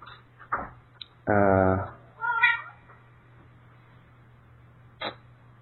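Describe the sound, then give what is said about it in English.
A pet cat meows: one loud, drawn-out call, then a shorter, higher one, with a few faint clicks before and after over a steady low hum. “that's my cat making a noise there, I have to communicate with it”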